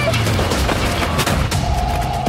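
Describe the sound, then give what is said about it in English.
Gunfire from someone shooting at people trying to reach a town hospital: a dense burst of sharp, loud cracks in quick succession over a noisy background. “We're just trying to get to town for a hospital when this psycho started shooting at us.”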